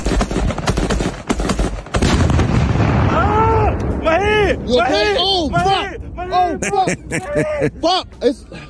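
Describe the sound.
Gunshots crack in a rapid burst, followed by a heavy explosion with flying shrapnel. Loud, dense blasts give way to a chaotic stretch of wavering, whistling tones and further sharp pops.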